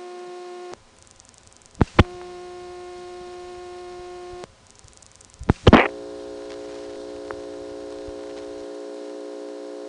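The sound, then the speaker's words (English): Steady buzzing hum on a subscriber's telephone line at the exchange's final switching stage, broken by a few sharp clicks and one loud crackle midway, after which the hum resumes. “This is the sound of the subscriber's phone line, which we're just sitting on.”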